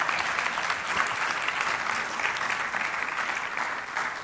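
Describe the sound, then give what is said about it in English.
A church audience applauds to welcome guests during a morning service, producing dense, continuous clapping that stays loud and even throughout. “So let's welcome them and give them a hand.”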